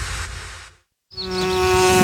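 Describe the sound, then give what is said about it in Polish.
Bees buzzing as they fly toward flowers in a garden. A dense, noisy burst cuts to a brief silence, then a steady, fairly loud droning buzz sets in and grows slightly. “Wszystkie pszczoły tam lecą.”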